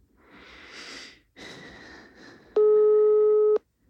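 A single steady ringback tone of about one second on a phone call that goes unanswered, after a stretch of soft, breathy noise.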